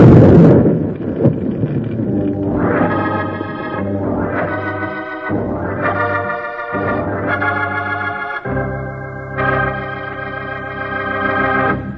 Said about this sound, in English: Shooting at the dynamite. Get back, Jiggle.